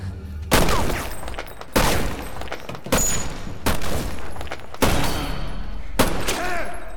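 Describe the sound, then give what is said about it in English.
Six loud gunshots fired into the dark in a dramatized scene, each a sharp crack spaced roughly a second apart, with a ringing decay that fades before the next shot. “Napoleon fires into the darkness.”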